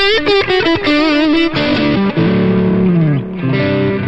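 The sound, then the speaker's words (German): High-gain distorted electric guitar plays a lead line with about 4 dB of boost. Choppy staccato notes give way to sustained singing tones, one bending downward, all loud and saturated. “dann habe ich die Crunch und High-Gain-Sounds immer nochmal als Lead-Sounds angehört”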